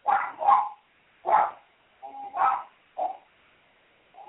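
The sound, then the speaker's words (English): A dog barks in a quick series of short, sharp woofs, some in close pairs, with brief pauses between them. “I'll try to get the dog calmed down a little bit.”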